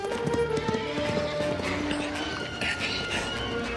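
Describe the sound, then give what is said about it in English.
Horses run with a busy, continuous clatter of hooves that stays fairly even and steady in loudness across the whole stretch. “Earl and Valentine are both thrown from their horses.”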